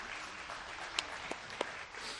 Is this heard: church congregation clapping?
yes